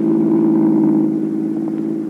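A car engine hums steadily as the car drives home from downtown. The low, even drone holds without revving and eases slightly in the second half.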